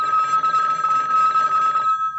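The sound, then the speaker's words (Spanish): A telephone ringing at three in the morning, a loud, steady electronic trill that sounds continuously and then cuts off just before the end, leaving a brief quiet tail. “Barack, wake up. It's three o'clock. The phone is ringing.”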